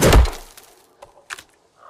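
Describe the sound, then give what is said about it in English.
A tomahawk thrown into tree bark lands with one heavy wooden thunk, followed by a few fainter knocks and taps. “She flips the tomahawk, then whirls around and hurls it. She throws it again.”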